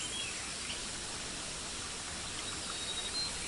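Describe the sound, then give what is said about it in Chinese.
Flowing water of a stream rushes as a steady, dense, even hiss that stays constant throughout, with no voices. “流水的声音包围着你，感觉一下颜色、光线。”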